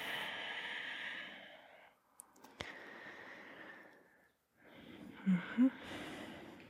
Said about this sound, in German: Ihr versucht den Atem bei euch zu behalten, den Ujjayi-Atem, den aktiven Atem, bis wir in Shavasana ankommen.